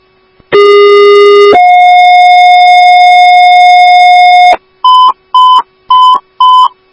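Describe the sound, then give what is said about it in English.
Loud dispatch alert tones for an ambulance call: a steady lower tone steps up to a long higher tone held for about three seconds, followed by four short, evenly spaced beeps. “But I got to tone an ambulance for you. Not a huge host, clear. Alarm series up.”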